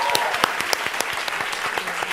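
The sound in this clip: An audience applauds at the close of a live event, giving a steady, dense patter of many hands clapping at moderate loudness throughout, with no break.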